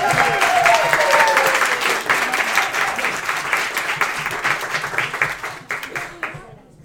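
Audience applause after a performer's set at a live music session: dense, sustained clapping that holds steady, then thins and fades out near the end.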